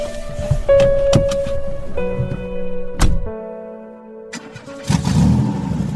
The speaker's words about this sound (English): My SUV idled with promise.